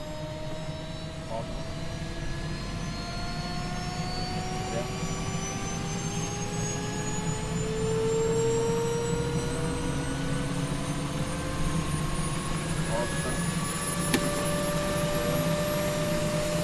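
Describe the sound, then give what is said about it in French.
Aircraft engine droning steadily during takeoff for a flight out to an aircraft carrier. Several whining tones climb slowly in pitch over a broad, even rumble. “Aujourd'hui, troisième épisode, on décolle pour rejoindre le Charles de Gaulle.”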